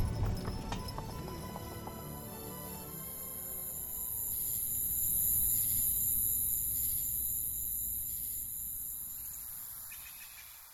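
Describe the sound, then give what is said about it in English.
Horse hooves clip-clop as a carriage travels through New York City, a steady rhythmic trot of many hoofbeats that swells gently in loudness toward the middle and then eases slightly. “So they took a carriage to an expensive hotel in New York City for the night.”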